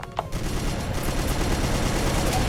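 A machine gun fires upward into the sky in a video game. The gunfire is a loud, dense, continuous roar of rapid shots that runs without a break from start to end.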